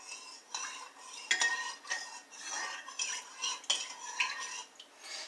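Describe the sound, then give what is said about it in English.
A utensil stirring dry spices for pizza crust in a bowl, making soft, continuous scraping strokes with occasional light clinks against the sides. The sound is faint and irregular in rhythm, with no talking over it. “I'm stirring that together. Now, next is going to be, I'm still stirring this a little bit.”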